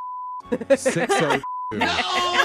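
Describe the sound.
Two steady, pure censor beeps, each under half a second, cut into conversation. People talk between the beeps and right after the second one.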